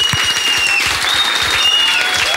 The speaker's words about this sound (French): Ah, c'est bien que le public applaudisse comme ça longtemps.